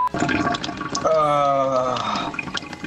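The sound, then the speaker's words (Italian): A man urinating into a sink in a garage: a steady trickling stream with a ringing, tonal filling sound that holds for about a second, fairly loud over background noise. “una pisciata del lavandino in diretta dal garage, siamo al top.”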